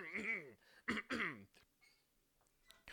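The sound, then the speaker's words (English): Someone clears his throat in a few short, faint, voiced rasps at a dinner-table conversation, followed by quieter small mouth sounds and near silence. “No, I had to clear my throat.”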